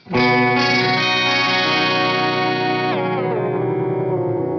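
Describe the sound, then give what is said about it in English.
Clean-tone electric guitar through a latched whammy pitch-shifter pedal sustains a bright, twelve-string-like note pitched two octaves up. Partway through it steps down to one octave up, ringing loud and alone. “It's a clean tone. So this is a latched kind of whammy thing. That's two octaves up, one octave up. Very 12 stringy.”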